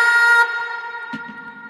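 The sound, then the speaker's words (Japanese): A jingle with an echo effect: a bright, sustained chord-like tone rings out, then stops abruptly and leaves a reverberant tail that slowly fades. “エコーがめっちゃいいね。 エコーいいですね。”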